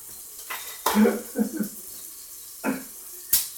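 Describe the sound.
Opening a pressurised bottle of sparkling spring water gives a few short, sharp bursts of hiss and clicking, one louder release trailing into brief fizzing, with quiet gaps between them.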